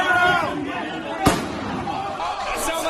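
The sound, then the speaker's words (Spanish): A single sharp gunshot rings out in the corridors of the US Capitol during the January 2021 riot. It is one loud, abrupt crack amid a steady wash of crowd noise and voices. “ese disparo que acaban de escuchar se producía en los pasillos del Congreso”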